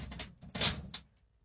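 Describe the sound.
A door being locked gives a few quick, quiet mechanical clicks and a short metallic rattle, all over within about a second.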